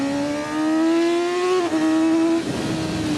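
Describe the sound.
A 600cc sport motorcycle with track-oriented riding position and a large windscreen, its engine holding a steady high whine that climbs slightly in pitch, dips briefly, then carries on with rough wind buffeting, loud and alone.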